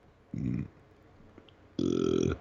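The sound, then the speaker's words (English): Two burps from a person trying to hold them down: a short, low, throaty burst, then after a pause a longer, louder, rasping one, with no talk over them. “I was, like, burping, but I tried to, like, hold it down.”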